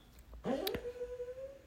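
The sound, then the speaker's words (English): A dog whimpers in its sleep while dreaming, a short sliding yelp that settles into one drawn-out, high, thin whine that holds steady and then fades. “oh my God, that is my dog having dreams right now next to me.”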